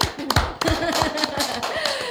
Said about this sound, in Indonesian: Tepuk tangan dulu mana tuh?